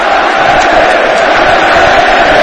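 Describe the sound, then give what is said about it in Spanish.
Loud, dense roar of a football crowd chanting in a stadium, red-and-white home supporters in full voice, a continuous wall of massed voices that stays level throughout with no breaks. “Ceuta no se vende, Ceuta se defiende, creo que es lo que canta la afición del equipo rojiblanco.”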